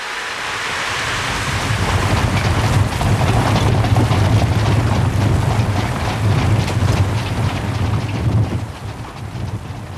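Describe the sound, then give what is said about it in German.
Heavy rain lashing down in wild, howling wind at winter dusk, a dense, steady roaring wash that holds at full strength for the whole stretch, with a low rumbling undertone and no voices. “Schwerer Regen in wildem Wind und winterliche Dämmerung. Nichts als die zerrissenen und wehenden Laken des Regens und der zerrende, heulende Wind.”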